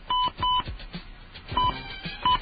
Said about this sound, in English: I'm going to call a phone number over here.